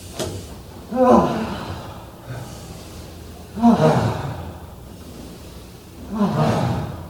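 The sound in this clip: Three deep breaths drawn in during a shoulder-shrug stretching exercise, each a breathy swell lasting about a second, evenly spaced with quiet gaps between them.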